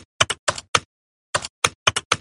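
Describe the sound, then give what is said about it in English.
Volunteers inside an MEG scanner type a number sequence on a computer keyboard as quickly and accurately as possible. Crisp key taps come in two quick bursts separated by a short pause, with no talk. “they asked them to type the sequence 41324 on a keyboard as quickly and accurately as possible.”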